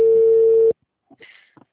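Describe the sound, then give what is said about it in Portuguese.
Telephone tone after a dropped call: a single loud, steady electronic tone holds for under a second and cuts off abruptly, leaving silence broken by a few faint, brief sounds. “eu acho que a ligação caiu.”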